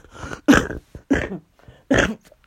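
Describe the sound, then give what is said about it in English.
A coughing fit: a few harsh, rough bursts of coughing separated by short pauses, loud and with no talking. “And I apologize for the coughing attack.”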